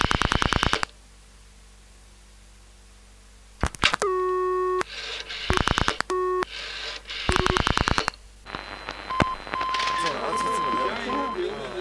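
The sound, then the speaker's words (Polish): Telephone tones sound as a call is placed to a switchboard: bursts of dialing beeps and busy-signal tones separated by a quiet gap, with sustained beeping tones toward the end. “Najpierw zadzwonię na rozdzielnię. Zobaczmy, czy mamy już gotowe łącza radiowe.”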